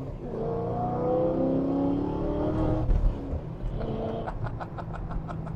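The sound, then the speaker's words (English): Engine of a manual stick-shift car making a tight U-turn: a steady low hum with shifting tones, a short knock midway, then a run of faint, regular ticks. “The U-turn. Is the U-turn tougher? Ooh, that's tight. Is the U-turn tougher with the stick shift?”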